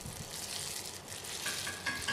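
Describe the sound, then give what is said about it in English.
Oliebollen dough sizzles as it deep-fries in oil in a wok, a steady, faint bubbling hiss that holds throughout. “So there's the dough going into the frying oil. It is very deep in a wok/saucepan, kind of.”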